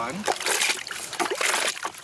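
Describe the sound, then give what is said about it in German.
Warm soapy water sloshes and splashes during a washing machine's main wash cycle, an irregular churning wash of sound with speech over it. “Ja, das ist jetzt der Hauptwaschgang. Das ist jetzt warmes Wasser mit Seife.”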